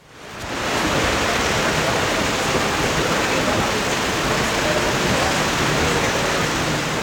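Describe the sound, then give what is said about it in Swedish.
Rain pours onto a white umbrella at a wet women's team golf tournament, Europe against the USA, in the Netherlands: a loud, dense, unbroken hiss that swells up within the first second and then holds steady. “framförallt kanske har det varit rätt blött kan man säga. Så här har det låtit under det vita Radiosporten paraplyet idag.”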